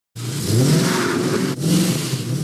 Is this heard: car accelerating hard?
yes